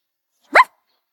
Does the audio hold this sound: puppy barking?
yes